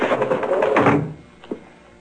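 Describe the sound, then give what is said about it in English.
A door is shut in a newspaper office during a radio drama, giving one short, soft thud after a louder, fuller passage of sound. “Come in and shut that door.”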